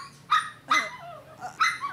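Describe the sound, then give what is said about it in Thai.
A dog barks a few times, short sharp, fairly high-pitched barks spaced apart with quiet gaps between them, moderately loud and with no talk over them. “ลัคกี้หยุดเห่าเดี๋ยวนี้เลยนะแกนี่”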